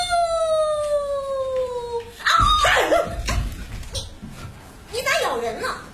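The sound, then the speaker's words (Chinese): A woman's voice imitates a wolf howl: one sustained, falling 'ah-woo' of about two seconds, followed by talking. “她躲在草垛后边，学着狼叫吓黄子牛。 啊呜！”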